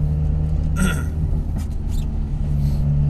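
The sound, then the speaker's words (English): Steady low engine rumble from a green car being driven, a constant droning hum that holds an even loudness throughout, with a few faint higher rustles on top. “I'm driving around in a horrible green car”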